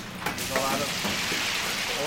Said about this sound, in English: It's 4:45. time to fry.